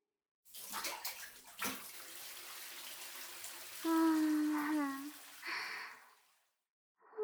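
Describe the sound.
Water is poured in a bath to rinse someone off, a steady splashing rush lasting a few seconds. A person then gives a voiced, sigh-like sound, followed by a short breathy noise.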